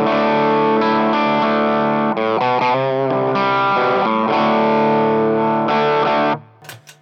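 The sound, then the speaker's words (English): Distorted electric guitar played through an AT overdrive pedal on its own, in a pedal-order demo. Loud, sustained notes and chords ring with gritty overdrive for about six seconds, then cut off into a short, faint tail. “So that's the AT pedal on its own. That's how it sounds.”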